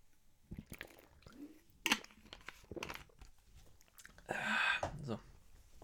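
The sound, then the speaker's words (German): A short, wet slurping sip of coffee bursts out briefly after scattered bits of quiet speech and small mouth noises. “So, jetzt muss ich mal einen kurzen Schluck trinken.”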